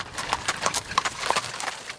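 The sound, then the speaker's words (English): Hooves clip-clop as horses pull jet-black Amish buggies at a gathering in Arcola, Illinois. Many quick, uneven strikes overlap in a steady, faint patter from start to finish. “Clouds of steam billow from a straining horse's nose as dozens of Amish families rein in jet black buggies.”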